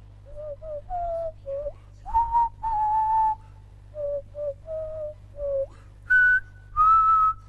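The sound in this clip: Happy Birthday played on a cane whistle, pure breathy notes in short phrases that trace the melody and finish on higher sustained tones, heard alone over a low steady hum.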